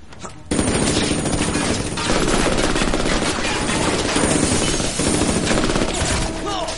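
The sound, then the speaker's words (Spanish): Automatic gunfire in an action thriller film. Dense, rapid bursts start abruptly after half a second and stay loud and continuous to the end. “Mira pensativo, se levanta y abre fuego.”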